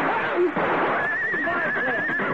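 A horse whinnies, a high, tremulous neigh that quavers steadily over a busy, noisy backdrop, with a few other scuffing sounds around it.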